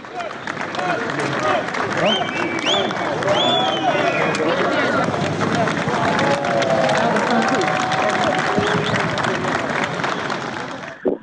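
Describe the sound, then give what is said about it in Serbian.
A large outdoor crowd cheers and applauds as the President of Albania steps out of his car to shake hands with people. The clapping and shouting voices stay loud and sustained throughout. “kada je on izašao iz kola i krenuo ka masi da se rukuje sa ljudima, to je dočekano ovacijama i aplauzima. Možemo i da čujemo.”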